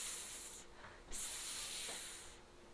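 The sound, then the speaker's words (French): A voice imitates a snake's hiss with a drawn-out, breathy "sss", a faint, steady hissing that dips briefly a couple of times. “Que fait le serpent? Le serpent fait”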